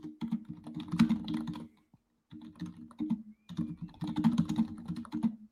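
Computer keyboard typing, a rapid, continuous clatter of key presses with one brief pause partway through. No one speaks.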